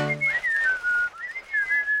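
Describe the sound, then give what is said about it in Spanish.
Melodic human whistling by someone scooting uphill while seated backwards, a clear tune that glides and wavers in pitch in steady phrases, loud and alone with no talk. “están ahora silbando y subiendo sentados una colina”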